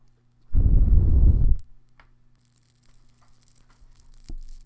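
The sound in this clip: Dried mugwort being lit for smoke cleansing: a loud, rough hissing rush of about one second as it flares up, then faint scattered crackles as it burns.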